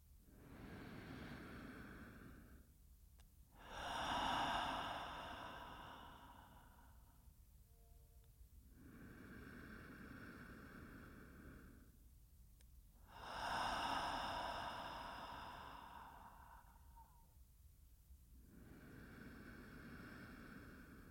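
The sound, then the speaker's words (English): Slow, conscious breathing, in through the nose and out through the mouth: long, soft, breathy rushes of air rise and fall in an even, unhurried rhythm. The breaths stay faint throughout. “And together we'll take 3 conscious breaths in through the nose and out through the mouth.”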